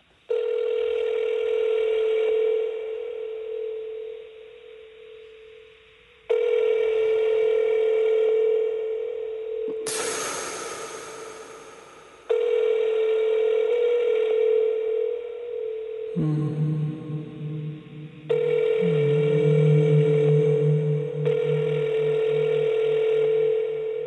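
Electronic telephone tones sound during a call to a company's customer service line. Long, steady, mid-pitched tones come in several segments, broken by a brief noisier burst and a lower-pitched pair of tones partway through.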